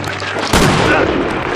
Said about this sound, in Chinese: 你他娘的真开枪！